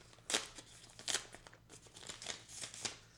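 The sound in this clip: A paper envelope being opened, with faint crinkling and tearing rustles: two sharper bursts near the start, then a run of softer crackles.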